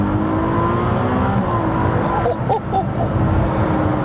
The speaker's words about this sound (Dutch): Maar deze V6, de Piccolo V12, zo wil ze hem zelf noemen. Zo klinkt die ook wel een beetje. Hier, luister.